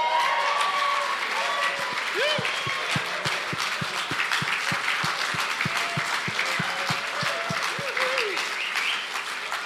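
An audience gives loud, sustained applause to welcome a preacher, with many hands clapping over a regular low thumping beat. Scattered cheers and whoops from the crowd rise above it.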